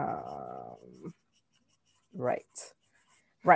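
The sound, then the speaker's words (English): Pen writing notes, a few short scratchy strokes following a stretch of speech, with quiet gaps between them. “All right, so I'm just writing some reference down for Baby Boy, right?”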